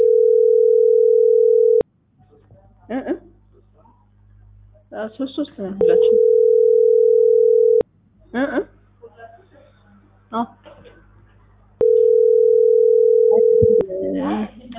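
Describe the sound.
Telephone ringback tones on a line: three long, steady buzzing rings of about two seconds each, evenly spaced, with people talking and murmuring in the gaps between them.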